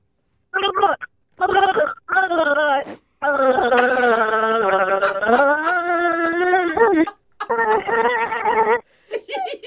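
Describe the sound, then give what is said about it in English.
A person gargles water while voicing a familiar carol tune, making a warbling, moan-like tone in several short bursts, then one long sustained stretch and a few more phrases, loud and alone. “What are you going to be gargling? What song? Joy to the world. Joy to the world. Okay. Well, whenever you're ready to gargle, go for it.”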